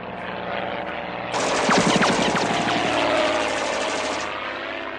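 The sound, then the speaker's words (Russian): Light propeller aircraft flying low over a hillside slope in a wartime scene: a loud, buzzing engine drone cuts in abruptly over a low background hum, pulses roughly as it passes, then thins out toward the end. “Описав дугу, над склоном пролетает легкий самолет.”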